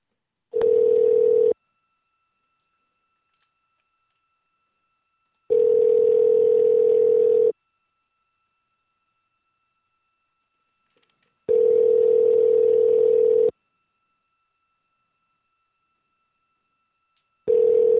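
Ringing tones from a phone call placed in a video game: steady, even electronic tones about two seconds long, separated by silent gaps of roughly four seconds, three full tones and a fourth beginning at the end, with no talk.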